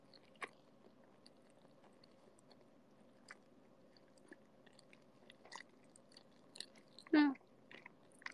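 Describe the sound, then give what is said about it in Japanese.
Someone chewing food: faint, sporadic crunchy and moist bites with soft clicks scattered across a quiet background. “待って、今、もぐもぐ中。”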